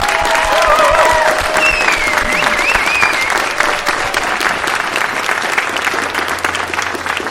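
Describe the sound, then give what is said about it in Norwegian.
A big round of applause from an audience at a celebration for the Norwegian airline Flyr: dense, loud clapping sustained throughout, with a few whistles near the start. “Jeg har lyst til at vi tar en kjempeapplaus for kollegaene mine som har fått det til.”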